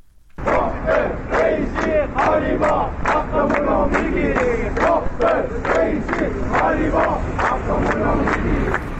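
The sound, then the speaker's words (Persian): Retirees in Ahvaz chant protest slogans over pensions and government policy, a loud crowd shouting in unison with a steady rhythmic pulse of syllables throughout. “این صدای گروهی از بازنشستگان در اهواز است.”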